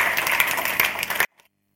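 Applause from a church audience welcoming a pastor: dense, loud clapping for just over a second that cuts off abruptly into silence.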